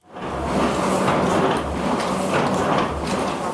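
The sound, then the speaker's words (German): Printing presses rattle in Paris during the First World War, a loud, continuous mechanical clatter with low thumps recurring about once a second. “Mitten im Ersten Weltkrieg rattern in Paris die Druckmaschinen für die Zeitschrift La Paix par le Droit, Frieden durch Recht.”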